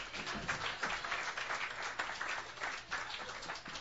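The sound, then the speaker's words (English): An open-mic night audience claps to welcome a performer to the stage, producing steady, dense applause that is fairly soft and continues throughout without a break. “Please put your hands together. Welcome Shane to the stage.”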